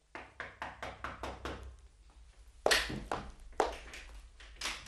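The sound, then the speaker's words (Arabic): Knocking on the door of a home: a quick run of light, even raps, then a pause and a few heavier, louder knocks spaced further apart, all fairly faint. “وانا قاعد في بيتي سمعت اللي بيخبط على الباب”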